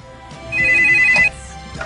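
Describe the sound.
Telephone ringing at a school: one short, loud electronic ring with a steady warbling two-tone pitch, rising sharply and cutting off abruptly.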